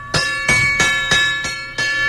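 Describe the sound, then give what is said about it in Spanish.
A bell rings at a patriotic 'viva' celebration: six strikes in a fairly steady rhythm, each bright and metallic and ringing on until the next blow. “Ahí está la campana.”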